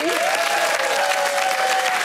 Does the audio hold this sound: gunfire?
no